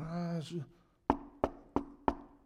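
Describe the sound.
Four sharp knocks on a door follow a brief voice, spaced roughly a third of a second apart and each one crisp and fairly loud against a quiet background.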